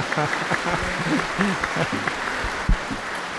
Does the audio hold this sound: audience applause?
yes